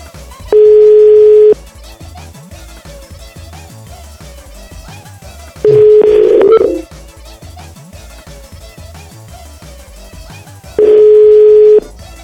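Telephone ringback tone from a radio studio call that never gets answered: three steady, loud, one-second tone bursts about five seconds apart, with a quieter background sound running beneath.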